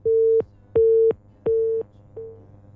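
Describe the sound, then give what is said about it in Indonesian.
A telephone busy tone sounds after a line cuts off: four evenly spaced, steady mid-pitched beeps with short gaps between them. The last beep is fainter and cut short. “Baik, terputus kembali ya line teleponnya.”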